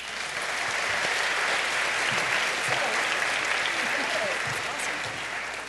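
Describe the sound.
Audience applause welcomes a guest speaker at Baylor Chapel, a loud, dense and unbroken wash of clapping that holds steady throughout.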